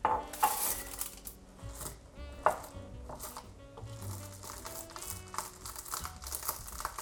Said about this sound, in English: Next up, we have 3/4 cup of chopped pecans.